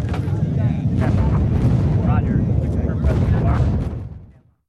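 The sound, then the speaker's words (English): An airstrike drops 11,000 pounds of bombs on a town, producing a continuous deep rumbling roar. The dense low rumble stays heavy for several seconds, then fades away to silence at the end. “That's one hell of an airstrike you had the LT calling. It's not on me. 11,000 pounds of bombs.”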